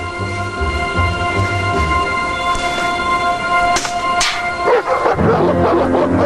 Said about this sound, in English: Two large dogs run towards Will.